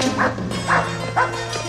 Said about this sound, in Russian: Джерри Ли лает, положив лапы на парапет